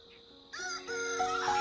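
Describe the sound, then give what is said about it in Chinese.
A rooster crows on a chicken farm: one loud, drawn-out harmonic crow begins after a brief quiet start and holds strongly to the end. “古寻伟的每一天的忙碌，基本都是从喂鸡开始的”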